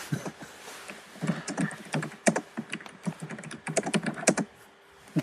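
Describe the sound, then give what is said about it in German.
Typing on a computer keyboard: many quick keystrokes clack in an uneven rhythm, with short pauses and bursts of faster presses, fairly quiet and with no voices. “Wenn ich das Tippen schon höre, muss ich schon lachen.”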